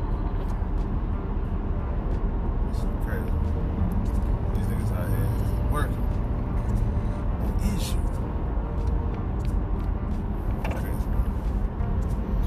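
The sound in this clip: Continuous road and engine noise inside a car driving on a highway through a construction zone with cones, an even drone throughout while people talk over it.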